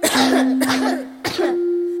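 Coughing performed within a German children's song: three sharp, breathy bursts spaced roughly evenly, heard over a steady sustained tone.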